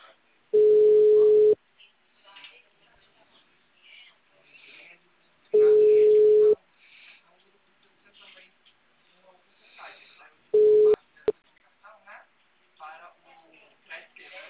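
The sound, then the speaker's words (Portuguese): Ringback tone of an outgoing phone call: three steady one-second tones at an even pitch spaced about five seconds apart, the third cut short, with faint low sounds in the gaps. “agora eu liguei para cobrar esse cliente aqui para ele ver o aplicativo dele.”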